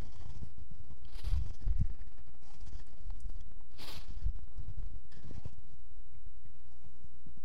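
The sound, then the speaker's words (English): A tape measure is pulled out. A few quick, rasping zip-like bursts of tape slide from the case, with soft knocks and clicks in between. “So I brought along my tape measure. We'll start over here and go this way.”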